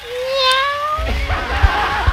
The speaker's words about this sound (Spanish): El gatito.